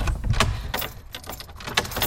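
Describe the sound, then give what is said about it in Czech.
Keys jangle and metallic clicks sound as the door to the Jewish cemetery in Pardubice is opened, a few brief, irregular rattles at moderate loudness. “Teď jsme právě otevřeli dveře do pardubického židovského hřbitova.”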